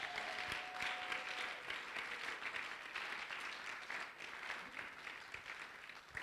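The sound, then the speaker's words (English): Applause during a sermon: many hands clapping in a dense, even wash that continues for about six seconds at a fairly low level. “Oh, somebody must be clapping because”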